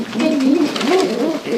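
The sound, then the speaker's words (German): A city pigeon coos while being fed a protein and vitamin mash from a needleless syringe, giving a few low, wavering coos in quick succession, fairly loud and with no talk. “In der Spritze ist Brei. In dem Brei sind Eiweiß und Vitamine. Das Füttern tut nicht weh. Momo schimpft trotzdem.”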